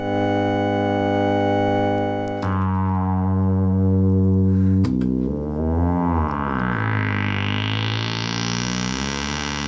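Sustained electronic tones stacked into a chord, as in electronic music. The chord shifts to new combined tones twice, then becomes a dense, buzzy, brightening texture. It stays steady and loud throughout, with no voices.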